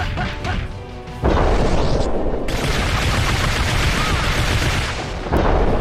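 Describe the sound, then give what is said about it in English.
Gunfire from Mystique in a fighting video game: loud, dense crashing blasts that run almost continuously after a softer opening, with a fresh burst near the end. “Not sure why they gave Mystique a gun, but she has one.”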